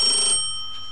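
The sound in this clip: A telephone rings while someone is being called: one bright electronic ring of steady high tones that fades within a fraction of a second.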